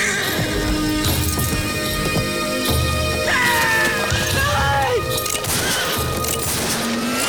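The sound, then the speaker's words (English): Horses neigh and hooves clip-clop as a rider arrives trailing two horses amid a Western gunfight. A loud, wavering whinny rises midway over continuous clopping hoofbeats and sharp crashes. “rides up, trailing two horses”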